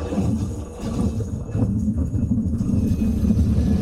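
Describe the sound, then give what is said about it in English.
Steady low rumble of a small airplane landing on a short gravel runway at a remote Bering Sea village. The roar is broad and continuous and grows slightly louder partway through. “We land on a short gravel runway a few hundred miles south of Kivalina.”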